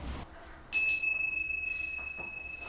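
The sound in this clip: A small bell is struck once, giving a bright, high, clear ring that sustains and slowly fades over about two seconds above faint background noise.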